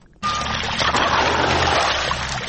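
Water rushes steadily as a farmer irrigates his field near Tarinkot, a dense, even flow that starts abruptly and continues with a constant hiss and gurgle.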